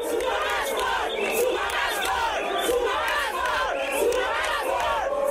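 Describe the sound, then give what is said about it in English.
A large crowd of workers sings and chants anti-Zuma slogans at a May Day rally in Bloemfontein, Free State Province; many voices rise and fall in a rhythmic chant at steady, strong volume. “But a larger group sang and chanted anti-Zuma slogans.”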